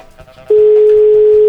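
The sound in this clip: A telephone ringing tone sounds on a connected call: one steady, mid-pitched beep lasting about a second, heard alone and loud.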